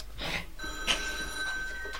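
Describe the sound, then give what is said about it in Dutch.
A telephone rings with steady, high electronic tones that hold through the whole clip at moderate level, over faint background noise and no talk. “Waarom gaat die telefoon nou weer?”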